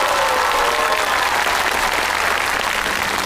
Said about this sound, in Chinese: 那现在就让我们以热烈的掌声有请出我们平谷区文旅局党组书记局长周彩玲，为获胜的参赛队伍颁奖